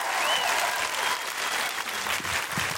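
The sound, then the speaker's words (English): Dense, steady applause from a comedy audience welcoming a comedian to the stage, a loud unbroken wash of clapping for the whole stretch with no talk over it. “Please put your hands together, make enormous woohooing noises, and break laws if necessary to welcome to the stage Mae Martin!”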